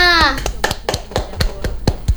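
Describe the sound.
Hand clapping after a poem reading, a steady evenly spaced series of claps from a small group, following a brief voice at the start.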